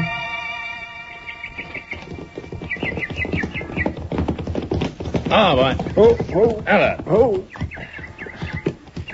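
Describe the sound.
Horse hooves clip-clop as riders set off, a steady rhythmic clatter heard beneath men talking throughout.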